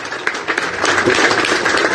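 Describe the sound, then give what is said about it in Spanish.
Applause from the audience at a sports tournament ceremony, a dense, steady patter of many hands clapping together that builds slightly and holds for two seconds. “Gracias nuevamente. Un aplauso para él.”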